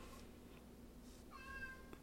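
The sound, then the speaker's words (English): A cat crying and meowing in a sobbing way: a few faint, drawn-out meows with the clearest one near the middle, heard alone without talk. “my cat's crying. Can you hear her? Yes. She's like sobbing. She's sobbing.”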